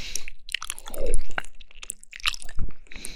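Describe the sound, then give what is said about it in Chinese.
Chewing and crunching while someone eats cold dressed pig ear: irregular moist bites, crunches and squishy mouth sounds, varying in loudness, with no talk. “我正吃着呢，在吃”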